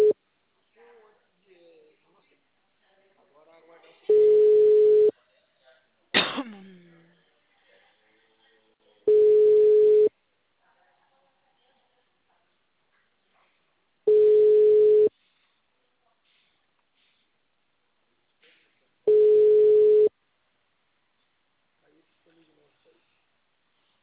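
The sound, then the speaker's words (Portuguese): A telephone busy signal sounds as four steady, mid-pitched tone bursts, each about a second long and spaced roughly five seconds apart, with brief voice sounds early on. “Ele é difícil atender? O número está ocupado.”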